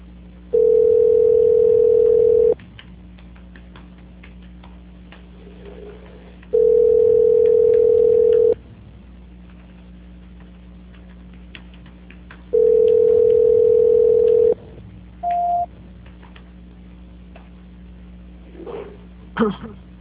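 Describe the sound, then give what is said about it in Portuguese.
A telephone line tone sounds while a call is transferred: three steady, even beeps of about two seconds each, spaced several seconds apart, followed by one short, higher beep over a faint line hum. “Estou tentando transferir. Tá. Transferência.”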